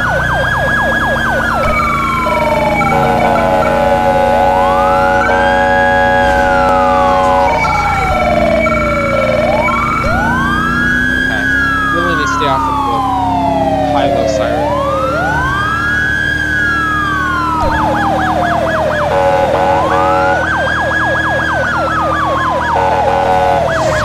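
A police car siren blares during a pursuit. Its wail sweeps slowly up and down in repeated cycles, layered with faster yelping tones over a low engine drone, and stays loud from start to finish.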